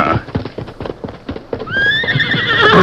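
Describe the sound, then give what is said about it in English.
Horses clip-clop as riders mount up, with many irregular hoofbeats. Partway through, a horse breaks into a long, loud whinny that carries over the hooves to the end. “We'll mount up and ride over that way.”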